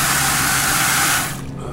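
Water gushes from a utility truck's tap into a clear container, a loud, steady hiss that cuts off abruptly near the end, leaving quieter background noise.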